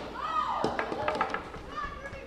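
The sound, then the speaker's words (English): Girl Scouts play softball, campers against counselors, inside a wooden gym at Camp Coleman: a high girlish squeal slides downward, then sharp thumps and knocks follow amid excited children's voices. “half a dozen Girl Scouts are inside the wooden gym at Camp Coleman playing softball.”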